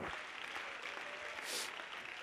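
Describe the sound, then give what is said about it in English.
A church audience clapping their hands: dense, continuous applause that forms a steady wash of claps throughout. “Clap your hands, all your people.”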